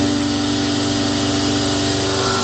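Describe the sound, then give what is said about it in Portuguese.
A chainsaw runs in a loud, steady engine drone at a constant pitch, with no voices over it. “Isso é uma motosserra que tá ligado lá, meu Deus do céu.”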